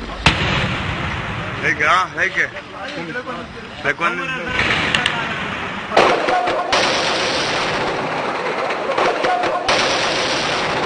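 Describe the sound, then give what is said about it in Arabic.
Machine-gun fire and hand grenades during clashes and sniping in Tripoli, Lebanon: sharp cracks and bursts of gunfire under continuous talking. “نهار محاورة طرابلس كليلها، قنص ومناوشات بالأسلحة الرشاشة والقنابل اليدوية مع اختلاف منسوب التصعيد.”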